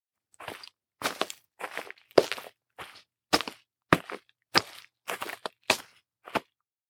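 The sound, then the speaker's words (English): Footsteps walking through the wild, about eleven evenly spaced steps with a crisp crunching, cracking texture, heard alone without voices. “At first, the only sound she could hear was herself walking in the wild like this.”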